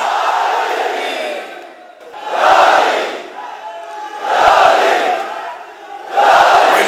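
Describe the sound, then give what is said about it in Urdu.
A crowd at a religious gathering honouring Ali chants loud collective cries in response to the Haidari slogan, rising in four swelling waves of massed voices with brief dips between them. “نعرہ حیدری”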